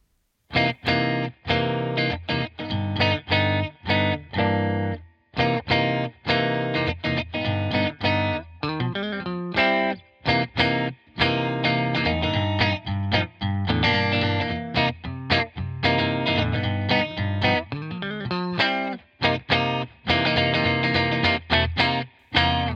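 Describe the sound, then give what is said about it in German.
A short recorded jazz étude on an instrument heavily processed with distortion and chorus effects, played as an interlude: a steady stream of notes with quick runs, broken by brief pauses, and no voices. “ich habe gestern eine kurze Jazz-Etüde aufgenommen. Die ist nicht wirklich dazu gedacht, eigentlich jetzt irgendwie veröffentlicht zu werden. Aber ich dachte, die bietet sich hier vielleicht kurz an als Interlude. Wir machen eine kurze Pause. Ihr kriegt etwas Musik auf die Ohren”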